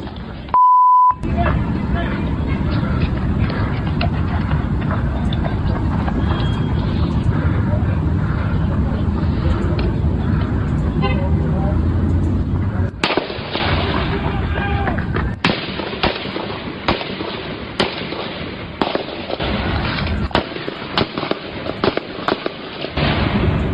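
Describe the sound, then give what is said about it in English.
Gunfire in witness footage of police shooting a gunman: many sharp bangs in rapid, irregular bursts, sometimes tightly clustered, with a brief beep at the start and voices throughout. “Police shot the gunman dead, and a witness captured this dramatic footage of the shooting.”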